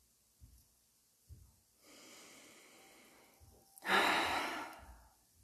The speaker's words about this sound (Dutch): met de hand op je hart weer 3 keer diep in- en uitademen.